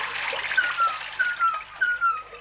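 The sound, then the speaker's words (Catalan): Water rushes steadily from a lion-head tap into a filling bathtub in a yellow-tiled bathroom, a continuous broad hiss with a few faint squeaky tones rising and falling through it. “En un bany de rajoles grogues, una banyera acabant-se d'omplir.”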